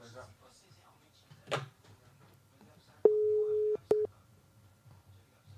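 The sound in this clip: A telephone tone sounds while a call is being placed: a long, steady electronic tone and then a short one, with quiet talk before and after.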